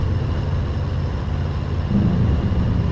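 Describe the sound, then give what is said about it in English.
A car drives fast along a highway in an audio drama, its engine and road noise making a steady low rumble that holds evenly throughout with no talk. “Figgis is driving fast along the highway.”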